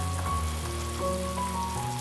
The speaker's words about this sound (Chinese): 已经滚了。哇，可以闻到黑醋很浓郁的味道，香香的。